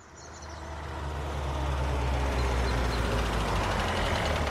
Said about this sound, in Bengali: সেদিন বিকেলে পুলিশ ভ্যানে চেপে আমরা পাহাড়ের ওপর দুর্গে হাজির হলাম।